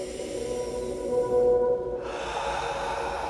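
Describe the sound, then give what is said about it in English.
A single slow breath is drawn in through the nose and let out through the mouth, soft and airy over a steady low hum. “And just try to breathe in through your nose and out through your mouth. But if your nose is clogged up, breathe in through your mouth by any means necessary.”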